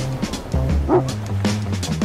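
Dogs barking on a boat at sea, with a run of several loud barks and yips mixed with whimpering, continuous across the short stretch.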